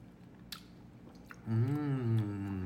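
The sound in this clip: Someone bites into and chews a mango-flavored snack with a mango smoothie taste. A few faint, crisp crunches stand out against a quiet background.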